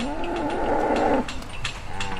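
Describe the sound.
A cow lowing as she calls to the herd: one long, droning call lasting about a second, followed by quieter shuffling sounds.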